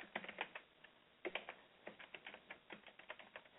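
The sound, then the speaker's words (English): Fast typing on a computer keyboard, with many quick, light key clicks in hurried bursts, a brief pause near the start, then steady rapid tapping. “Trying to type too fast, I'm making mistakes.”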